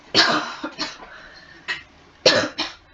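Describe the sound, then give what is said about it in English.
Several harsh coughs from a person who recently had COVID, arriving in two short clusters separated by a pause, each a sharp loud burst that quickly fades, with no speech between them. “sorry, I might be coughing a bit during this.”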